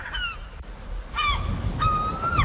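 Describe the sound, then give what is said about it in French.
Gulls call in three loud, harsh, nasal cries. The first two are short and slide downward, and the last is a longer drawn-out wail, all over a steady rushing background. “Ah oui, c'est des... Goéland, nous y sommes.”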